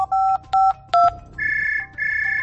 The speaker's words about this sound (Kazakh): Телефонын эзләп тапты һәм кемнеңдер номерын җыйды.